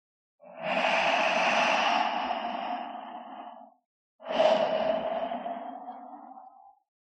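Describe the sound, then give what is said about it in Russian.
A loud, noisy inhale of breath followed by an equally noisy exhale. Each is a long, breathy rush of about three seconds, separated by a brief pause, with no voices. “А дальше раздался шум втягиваемого воздуха, затем столь же шумный выдох.”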